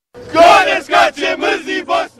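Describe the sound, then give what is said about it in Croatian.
Football fans shout and chant in loud, ragged bursts as a crowd gathers in Los Angeles before an important match, with several voiced cries rising and falling in quick succession. “Brojni navijači blokirali su Los Angeles uoči ovog važnog meča.”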